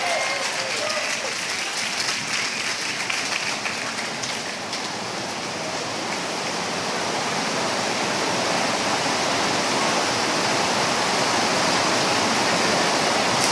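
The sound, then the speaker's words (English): Rain pours steadily onto a tent outside during a church service, a dense, even hiss that stays loud and unbroken from start to finish. “I'm trying not to yell in this tent of your own line, but it's raining outside.”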